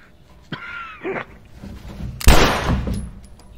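A single gunshot in a video game where an infected character is being aimed at: a few quieter bumps, then one sharp, loud burst with a short decaying tail.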